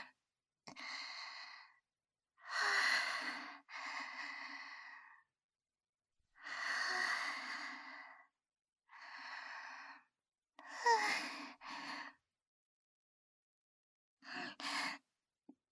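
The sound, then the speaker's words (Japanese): Slow, deep breaths follow one another in a series of drawn-out, sighing inhales and exhales, each lasting about a second, separated by short silences, with no speech. “もう一度深呼吸。”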